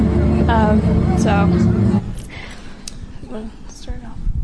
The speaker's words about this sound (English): This is actually a little video of the Eiffel Tower sparkling, which is so, it was just so fun.